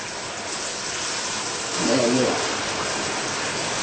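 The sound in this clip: Battered shrimp and bread fry in hot oil with a continuous rain-like sizzling hiss. The hiss swells slightly partway through, then settles back to a steady level.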